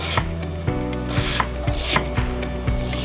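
A knife thinly slicing peeled bạc hà (taro stem) on a board: many crisp, evenly spaced cutting strokes in a steady rhythm, each a short thud with a bright snap.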